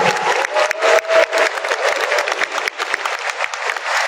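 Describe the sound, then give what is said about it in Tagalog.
Audience applause at an event wishing athletes well for the coming Para Asian Games: dense, continuous clapping fills the whole clip at a steady, loud level. “Palakpakan po natin ang ating mga sarili. All the best po para sa Para Asian Games na darating October naman. Palakpakan po natin ang Para.”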